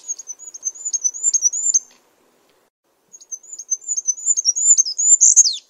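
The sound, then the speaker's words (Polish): Goldcrest song: very high, thin, rapid trills in two phrases separated by a short silence. The second phrase ends in a quick flourish. It is heard alone over a quiet background. “To jest właśnie głos mysi królika.”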